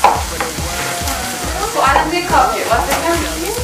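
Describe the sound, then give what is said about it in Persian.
Potato chips sizzle and crackle in hot frying oil while being stirred, with repeated scraping strokes of the utensil in a quick, uneven rhythm over the steady hiss. “چیپس ها الان سفتن، من میزنم روشون یعنی چون هم سفتن چه اتفاق میفته؟ اگه گفته یعنی سرخ نشدن هنوز. شرمندگان عزیز ولی من دارم هنوز اینو هم میزنم.”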